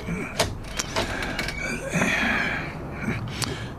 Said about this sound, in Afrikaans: Nou uh saggies die verbindingsdeur tussen kamer 303 en 304 oopmaak.